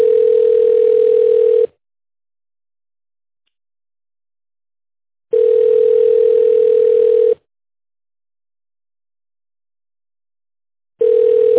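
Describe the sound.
Telephone call tone heard while a call is being placed. It comes as a steady mid-pitched tone in three long bursts separated by long silences, and the last burst is cut off. No voices are heard.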